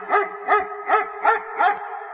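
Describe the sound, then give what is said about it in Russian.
Five evenly spaced, mid-pitched barks from a chained dog, each short and gruff with an angry edge, coming one after another with brief gaps between. “Пес сварливо залаял, гремя цепью, ходившей по проволоке.”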